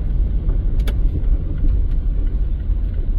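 A car drives into a run-down former sports oval and recreation area, giving a steady, loud low rumble of engine and road noise that holds throughout with no talk.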